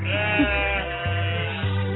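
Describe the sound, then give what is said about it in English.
A goat bleating, one of a pair that surf at a California beach: a sustained, wavering nasal cry with rich harmonics, fairly loud and heard on its own. “Two goats named Goatee and Pismo are now wowing California beachgoers as they show off their goat surfing skill.”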